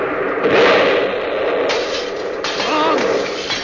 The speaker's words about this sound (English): That was a bomb!